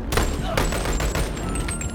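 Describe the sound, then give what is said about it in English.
Video game gunfire with bullets striking and passing through a crate, heard as dense, rapid bursts of sharp shots and impacts that run steadily through the whole stretch. “bullets are going through the crate. Yeah. So, you need to find actual hard cover, or else you're gonna get shot.”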